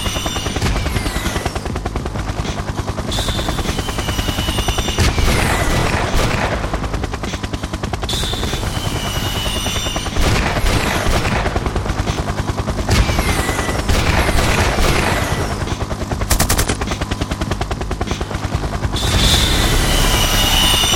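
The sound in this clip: Helicopters firing guns in a video game: loud, continuous rapid bursts of machine-gun fire that barely let up, with sweeping whooshes running through the barrage.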